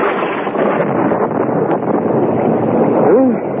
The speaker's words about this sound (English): Listen to that thunder. Bad storm. I hope the roof won't leak. It's this wind.